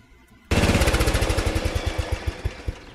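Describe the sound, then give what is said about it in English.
A riding lawn mower engine with a 12-volt battery starter and an alternator. It catches abruptly after a quiet lead-in, then runs with a loud, rapid, low thumping beat that gradually loosens into slower, uneven pulses. No one speaks. “I'm sitting here on my ride and more. Which has a 12-volt battery starter on it and an alternator or a generator of some type to keep the battery”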